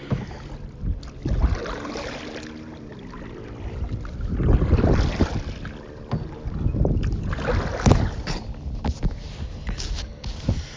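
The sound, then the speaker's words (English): Strong wind blowing during a fishing outing: a steady, rough rushing roar that swells and eases in gusts for about eleven seconds, with no talk. “Now the wind is really pushing me.”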